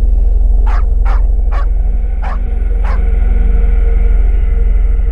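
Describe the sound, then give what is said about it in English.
Dogs barking: five sharp, separate barks in a loose, irregular rhythm over a constant low rumbling hum that runs under the whole passage. “What the blazes is going on with those darn dogs, Lucky?”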